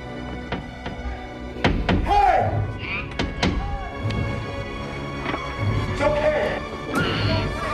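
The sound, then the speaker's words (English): A fist bangs on the glass wall of a cell, making a few heavy, hollow thuds. Sharp knocks are spread unevenly through a dense, continuous background of noise. “Peter discovers Julia floating in her cell and bangs on the glass wall”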